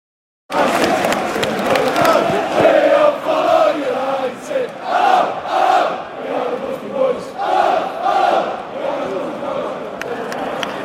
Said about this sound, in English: Right, welcome to St James's Park. We're in the United We Stand podcast. I'm stood with a group of Newcastle United fans here